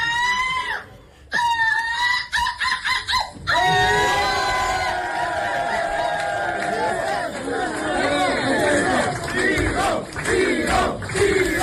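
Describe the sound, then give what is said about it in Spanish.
An audience chants the name Vigo at a ceremony crowning a runner-up. Loud massed voices rise after a few seconds of broken, choppy sound and carry on as a sustained roar. “el público, Olga, acaba coreando el nombre de Vigo, Vigo.”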